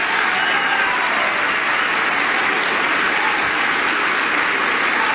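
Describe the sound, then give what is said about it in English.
An audience gives a standing ovation during a speech, with loud, dense applause and cheering that continues without a break for about five seconds. “Getting a standing ovation there from the people in the audience on that line, a great line too.”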